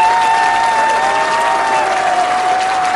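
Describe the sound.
Studio audience applause greets a live radio show's host, a steady and loud wash of clapping that holds without a break.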